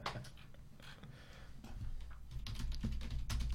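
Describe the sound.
Typing the word rock on a computer keyboard: a few quick, light keystroke clicks over a low background rumble that grows slightly louder toward the end.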